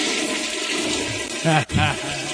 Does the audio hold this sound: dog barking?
no